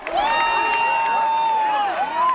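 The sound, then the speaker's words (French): People cheering at a total solar eclipse, with about 1000 onlookers gathered on a farm field. One long, high, steady whoop dominates the whole moment, with a slight dip in pitch before the end. “Ce que vous entendez, c'est ce moment magique de bonheur de l'éclipse totale. Près de 1000 personnes étaient venues sur une grande esplanade, un champ agricole, l'endroit idéal pour observer ce phénomène astronomique.”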